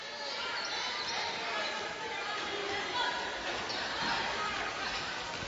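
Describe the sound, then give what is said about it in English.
A basketball dribbled on the court during a women's game, repeated bounces beneath continuous play-by-play commentary and low crowd chatter. “Smith dribbles to her left.”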